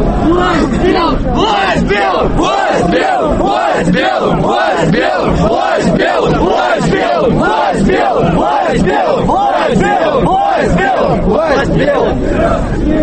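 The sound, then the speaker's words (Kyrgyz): A crowd of marchers at the Russian March rally shouts slogans in loud, rhythmic unison, the chant beating steadily and repeating without a break. “Марш топ-топ болуп бөлүнүп, колонналар акырын жылып, катышуучулар урандарды кыйкырып жатышты.”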